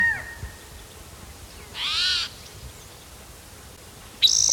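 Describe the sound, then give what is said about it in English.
Calls from a male bird ring out in a few separate bursts: a faint short note, then a louder, slightly drawn-out call, and a sharp abrupt call at the end, all fairly high-pitched over a quiet background. “Bird that's calling, I think it's a different male.”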